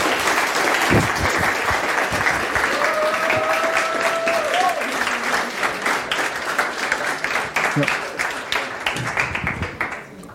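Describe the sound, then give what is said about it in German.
An audience applauds with a dense, steady clatter of many hands clapping that carries on throughout and eases slightly toward the end. “Ein Applaus für Leon Akku.”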